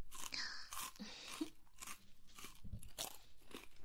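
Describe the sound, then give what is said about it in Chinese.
Crunchy potato chips being bitten and chewed, a dense unbroken run of loud crackling crunches with no talk over it. “这边还有洋芋片要吃吗？也是挺好吃的，看样子啊。你是饿坏了呢？”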